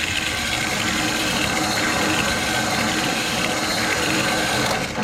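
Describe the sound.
A sandpaper disc spinning on a motor-driven record turntable gives off a harsh, continuous scratchy hiss, loud and even from start to finish.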